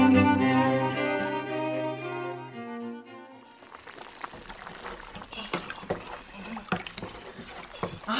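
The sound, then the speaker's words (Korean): A pot of something boils on the stove with a soft, irregular bubbling and popping. The bubbling begins after a sustained tonal sound fades out and then continues faintly to the end. “엄마 또 끓여? 아유, 참. 오늘은 뭐 또 끓이는 거야, 대체?”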